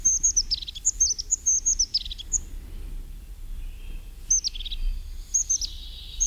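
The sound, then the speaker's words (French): A crested tit calls in thin, high-pitched chirps and short trills, delivered in several quick bursts separated by brief pauses over a faint low background rumble. “il y a une autre mésange par contre, qui est une cousine de la bleue et de la charbonnière, c'est la mésange huppée.”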